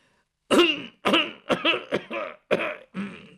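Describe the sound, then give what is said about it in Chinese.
A voice imitates an old father coughing in the room across the way: a series of harsh, gravelly coughs and throat-clearing bursts in quick succession after a brief silence, loud and alone. “就听对面屋他爹在那咳嗽一声”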